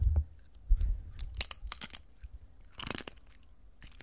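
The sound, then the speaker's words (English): Amateur ASMR mouth sounds of wet chewing: many crisp crunches and bites in an uneven rhythm, close and fairly quiet, with short pauses between clusters. “Guy Montgomery doing a little amateur ASMR. There wasn't bad. I didn't mind that. It's the wetness that I have issue with. It's the slobber. It's the spit.”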